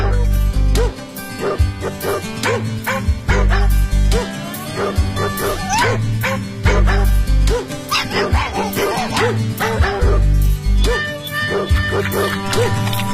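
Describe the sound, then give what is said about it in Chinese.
A small dog barks in many short, high yips and yaps that repeat quickly and unevenly. The barking is loud and lasts the whole stretch. “今天我给大家讲的故事是小狗点点。”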